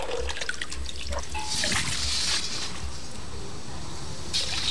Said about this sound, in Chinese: 先将蝎子浸入冷水中，淘去泥沙，漂洗干净，